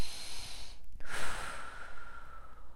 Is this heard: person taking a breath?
yes